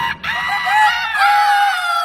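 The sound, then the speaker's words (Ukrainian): Roosters crowing in two loud, drawn-out calls, one right after the other, each a strained, harmonic cry held on a fairly steady pitch. “Аж тут і півні проспівали.”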